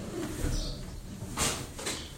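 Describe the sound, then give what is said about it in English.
A bird calling outside, a few soft cooing notes, faint against background noise. “You know that bird's actually screaming, "Let me in," right? He's staring right at you guys.”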